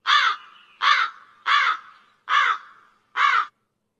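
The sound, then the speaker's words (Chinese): Five crows give harsh, evenly spaced caws. The calls are loud and nearly identical, with short silences between them. “看看第二组乌鸦的声音呢？”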